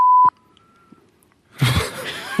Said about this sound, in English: Can you fill in the beep?